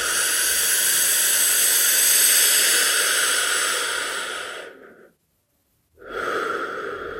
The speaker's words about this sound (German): Mit gespitzten Mund so viel wie möglich Luft in deinen unteren Bauch. Einfach mal wieder einatmen.